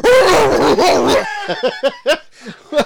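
A person imitates a dog barking. A loud, drawn-out voiced sound is followed by a run of short, sharp bark-like yelps at uneven intervals.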